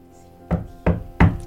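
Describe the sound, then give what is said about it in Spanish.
Knocking on a door: three firm, dull knocks spaced about a third of a second apart, over a faint steady hum, with no voices. “Tocan la puerta.”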